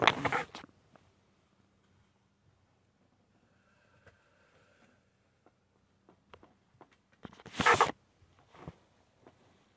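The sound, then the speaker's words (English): Insulation is stripped off electrical wires with two short, harsh rasps of tearing and scraping, one at the start and one near the end. Faint clicks and handling noises fall in the quiet stretch between them. “At this point, you got your wires stripped, at least most of the way.”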